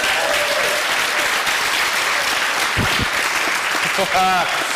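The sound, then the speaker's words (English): Audience applause for a volunteer: steady, loud clapping from a crowd that holds at an even level from start to finish. “Please have a hand for Daniel.”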